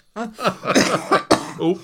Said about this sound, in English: Desperate cough. Oh. When I laugh, it kicks it off, would you believe, is not good.